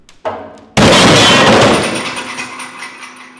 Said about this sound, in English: the panel breaks in half, crashing to the floor under more than 5,400 pounds of pressure.